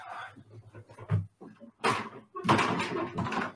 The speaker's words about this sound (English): let me close my door